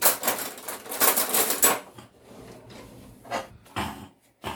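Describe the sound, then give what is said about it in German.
A fork stirs chocolate and vanilla cake batter for a marble cake, making dense clicking and scraping strokes against the bowl that are busiest at first, then a few separate taps; no talk. “Und dann rührt man das hier so einmal um, damit Schoko und Vanille ein bisschen gemischt sind.”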